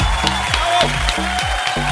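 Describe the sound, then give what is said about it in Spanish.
Applause rises over a bouncy musical backing whose rhythmic, repeating phrases pulse beneath the clapping for the whole stretch. “¡Un aplauso! ¡Bravo!”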